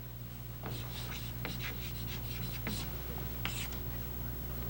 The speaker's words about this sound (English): Sex is a circle. Have you ever noticed that's the only thing that I draw well is a circle?